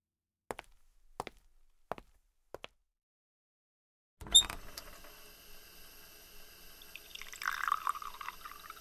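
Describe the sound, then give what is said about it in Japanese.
Water runs into a wash bottle meant for rinsing a wound, after four faint, sharp clicks and a brief silence. The trickle is soft and steady and grows louder toward the end. “洗浄用のボトルにお水を溜めるから、ちょっと待ってね。”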